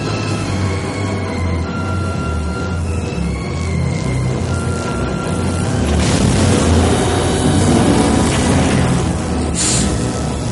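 A science fiction hovercraft ship lands in the dark ruins of a vast circular columned hall: a dense, continuous deep rumble with low droning tones and hiss, swelling louder about midway through.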